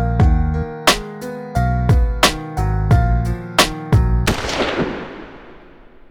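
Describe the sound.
A single sharp gunshot-like bang cuts through a sad, piano-backed rap song after a series of struck notes, leaving a noisy tail that slowly fades out.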